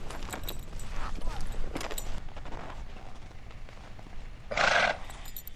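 A horse being saddled on race day gives a short, bright whinny near the end, after a stretch of faint rustling and scattered light knocks.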